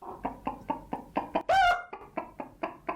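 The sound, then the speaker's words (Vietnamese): A young hen, tied by its legs with a cord and pecking on the ground, gives a steady series of short, soft clucks, broken midway by one louder, higher squawk. “Con gà đang kêu túc túc nằm mổ mổ ở dưới đất như chưa biết chuyện gì sẽ xảy ra.”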